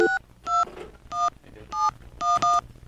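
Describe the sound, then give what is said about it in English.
Touch-tone beeps sound as a telephone number is dialed: six short, clear tones, each a pure two-pitch beep, spaced at an uneven rhythm, with the last two in quick succession. “You want to dial up?”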